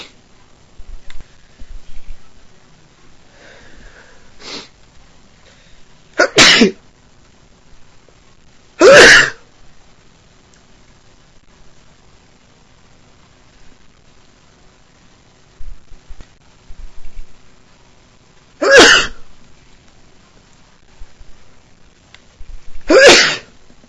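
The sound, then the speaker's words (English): Repeated allergy sneezes burst out loudly, about four sharp, forceful blasts spread apart, with a couple of fainter sniffs or catches between them and near-silence in the gaps. “Just been kind of sneezing all day today. I guess it's allergies.”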